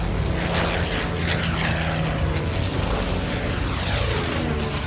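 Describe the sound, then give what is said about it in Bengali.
Droning roar of a fleet of wartime propeller warplanes, fighters and bombers flying together, a dense, steady engine rumble that stays loud and even throughout with no voices. “ডান্সমোরের এই বার্তা প্রত্যেকটা বিমানের কাছে পৌঁছাতেই গোটা বিমানবহর জ্যাকেটের চেনের মতো লম্বালম্বি দুভাগে ভাগ হয়ে গেল।”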